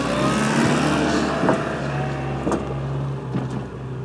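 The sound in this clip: Steady engine drone of a vehicle driving past farm feed storage holding maize and beet pulp. The low hum stays even throughout, with a few faint knocks and no talk.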